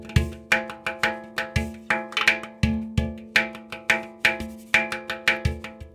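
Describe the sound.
A hang drum played percussively without distinct notes: many quick, sharp taps and knocks in a busy, uneven rhythm, mixing bright metallic clicks with deeper thumps, with no voices.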